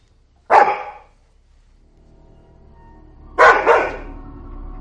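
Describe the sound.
A dog barks toward a bed in a bedroom: two sharp, loud barks spaced a few seconds apart, the second a quick double, over a low steady hum.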